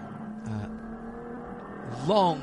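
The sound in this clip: Race car engines accelerating after the green flag on a corner exit, heading uphill: a steady engine drone under speaking voices, then a loud rev climbing in pitch near the end.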